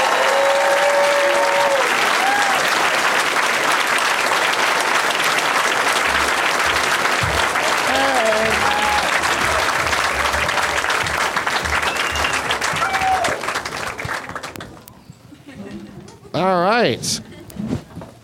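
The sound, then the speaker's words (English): A studio audience applauds and cheers as guests come out, a dense, loud wash of clapping that holds steady for about fourteen seconds before dying away, followed by a voice talking. “Please give a big warm welcome to Chris Crespo, Matt Fernandez, and Esther Koo, everybody. Let's hear it for them.”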